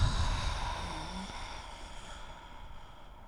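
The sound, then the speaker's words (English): Audible throat breathing with a nasal inhale and an ocean-like exhale: a faint, steady, breathy rush that slowly fades over about three seconds, with no talk. “like an ocean sound or a Darth Vader sound. Let me demonstrate. You breathing in through the nose, moving the breath to the back of the throat, and when you exhale, making the sound.”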